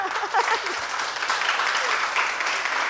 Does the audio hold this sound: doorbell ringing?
no